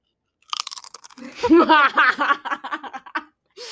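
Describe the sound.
Stacked potato crisps, an off-brand of Pringles, crunch and are chewed in a few short bites mixed with giggles and other vocal sounds.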